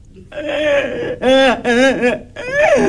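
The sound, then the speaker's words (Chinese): A child crying in wavering, voiced wails and whimpers that bend up and down in pitch, coming in a few loud bursts with short breaks between them. “别哭别哭，那么回事儿。”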